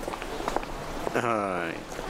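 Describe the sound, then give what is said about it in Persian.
Soft footsteps of people setting out on foot for a walk, a few light steps early on, followed by a voice speaking over them. “دوست داری امروز با تاکسی بریم؟ نه، یکم قدم بزنیم.”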